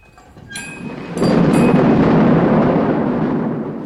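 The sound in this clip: Thunder with lightning: a sharp crack followed by a loud, deep rolling rumble that swells abruptly and then sustains as a broad roar before slowly easing off, with no voices.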